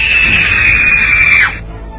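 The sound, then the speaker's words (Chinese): A person screams in one loud, high-pitched, sustained cry that holds steady for about a second and a half, then drops in pitch as it breaks off. “在我尖叫出声的同时，他从窗户跳了下去。”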